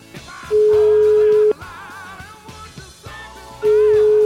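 Telephone ringback tone as a number is called: two long, steady, mid-pitched beeps separated by a pause, heard over soft background music.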